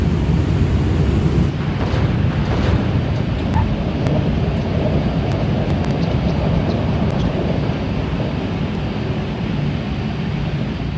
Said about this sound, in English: Captain, we are exiting the runway now.